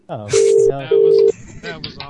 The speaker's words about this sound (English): Hung up and now it's ringing again.